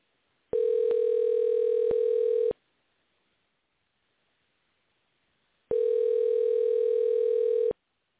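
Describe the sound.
Ringback tone of an outgoing phone call: two long, steady, buzzing tones, each about two seconds, separated by a few seconds of silence.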